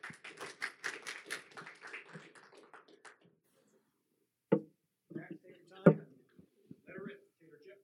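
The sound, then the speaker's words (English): Audience applause welcoming a speaker to a testimony talk: about three seconds of steady, dense clapping that fades away, then a voice begins speaking. “So if you guys would, put your hands together and make Max feel welcome.”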